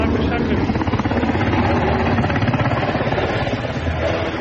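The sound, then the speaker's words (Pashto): Helicopters flying over Kabul, a loud, continuous rotor and engine roar with a fast, rough pulsing that holds steady throughout. “د کابل په فضا غنی هلیکوپټر ګرځي”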